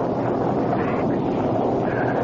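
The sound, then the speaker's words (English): A storm roars as a steady, dense wash of wind-like noise, loud and unbroken throughout, with no voices. “Just a storm.”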